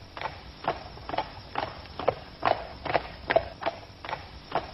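Clip-clop of horses' hooves as riders walk slowly out of a town, a steady, even rhythm of many moderate hoof strikes with no voices.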